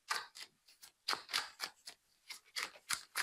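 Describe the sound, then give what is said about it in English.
Greeting cards handled for ASMR give crisp paper rustles and scrapes, many sharp, bright bursts in quick succession with short pauses between, quiet and with no talk. “Time for the card ASMR. Oh, yes. These cards are so beautiful.”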